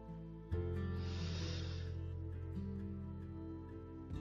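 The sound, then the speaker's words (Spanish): A soft nasal inhale during a guided stress-relief meditation, a faint breathy hiss lasting about a second over a steady, quiet musical drone. “Exhalamos en dos tiempos por tu boca. Nuevamente inhala por tu nariz.”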